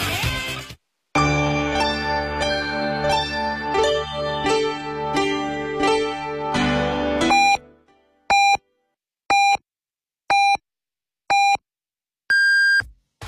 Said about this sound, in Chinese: 北京城市广播1073，请您准确对时，现在是北京时间14:00。